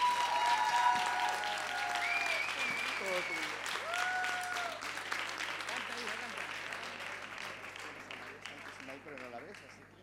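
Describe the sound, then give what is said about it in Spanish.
Sustained audience applause, dense and steady for about ten seconds and slowly fading a little, with a voice carrying over the clapping early on. “Pero dice que quiere un aplauso de verdad, de corazón, que se oiga hasta en Tarifa.”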